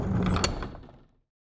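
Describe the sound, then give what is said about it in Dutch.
Heavy palace gates are pushed open with a low, grinding rumble that stays steady for a moment and then fades away to silence within about a second. “Met dikke tegenzin duwden ze de zware poorten van het paleis open”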